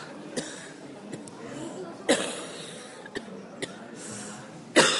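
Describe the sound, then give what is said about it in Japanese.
Someone coughing and choking: several short, sharp bursts spaced a second or so apart over a quiet background, the last burst the loudest. “あいださんの作品見てむせてんですか”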